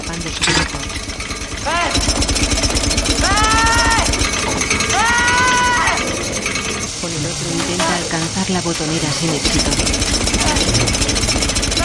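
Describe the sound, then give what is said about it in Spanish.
A machine's gears and wheels turn to push a blade forward over a man's arm. The rapid, steady mechanical rattle and clatter runs for about twelve seconds, with sustained tones in places. “la ruedas giran haciendo avanzar una cuchilla sobre su brazo.”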